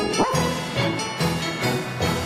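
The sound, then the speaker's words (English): Dog barking, a dog being treated for staples stuck in its head, giving a few short, yipping barks in a loose, uneven rhythm, fairly loud and clear with no talk over them. “There's a good dog. Yes, you are.”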